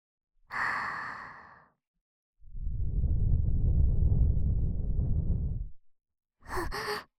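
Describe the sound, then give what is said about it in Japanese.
Three breaths blow softly into an ear: a short airy exhale, then a long, low, rushing blow lasting a few seconds, and finally a brief puff. “耳ふうふうしますね。”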